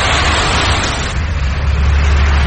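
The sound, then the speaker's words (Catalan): City street traffic in a 2003 film with no musical score: a steady, fairly loud low rumble of passing vehicles and road noise, without speech. “Sentim la ciutat perquè no hi ha banda sonora en tota la pel·lícula.”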